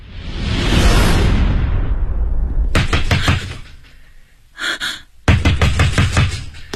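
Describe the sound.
A man pounds heavily on a door late at night. After a loud rushing whoosh come two bursts of many rapid knocking blows, separated by a short pause.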